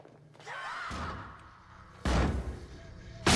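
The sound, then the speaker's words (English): A person crashes through a skylight above a door and lands in a few inches of water: after a quieter lead-in, two sudden, loud, heavy crashing bursts. No voices. “crashes through the skylight and lands in a few inches of water”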